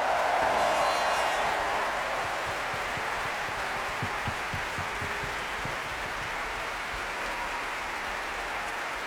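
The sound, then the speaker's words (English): An audience applauds at the Proms, a dense, steady wash of clapping that holds at an even level throughout. “For now, let's put our hands together and let's give a big round of applause to the hundreds of artists who have made this year's Proms the most successful ever”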